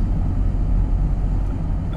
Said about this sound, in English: all the white noise of the car and the sound of my voice